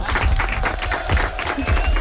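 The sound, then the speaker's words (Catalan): Applause breaks out from a group in short, lively bursts of clapping that swell and ease as voices mingle in. “Molt bé. Molt bé, aplaudiment.”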